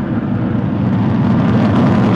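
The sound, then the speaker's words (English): Loud, steady roar of a Falcon rocket carrying a Dragon capsule lifting off on the Crew 13 mission, a thick, unbroken rumble sustained for the whole clip. “2-1, ignition, and liftoff. Go Falcon, go Dragon, and go Crew 13.”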